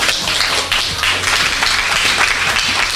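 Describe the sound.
Applause at a school event, given for a class of students: a dense, even patter of many hands clapping together, held at a steady level throughout with no voices over it.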